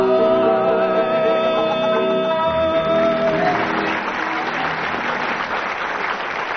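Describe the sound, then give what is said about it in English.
Loud audience applause for a sung round in a game contest, rising as a tune ends and carrying on as a dense, steady wash of clapping to the finish. “So by the applause of the audience”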